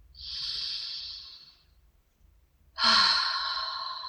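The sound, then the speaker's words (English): Two long, breathy rushes of air from deep breaths taken in a guided breathing exercise. The first swells and fades slowly, and after a short pause the second starts abruptly and louder, with no talking. “Taking two big breaths and dropping on the out breath, exhaling and landing in the heart.”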